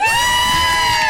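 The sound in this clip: A brief, loud cheering whoop that stands in for a live studio audience congratulating someone, held on a steady pitch before dropping off at the end.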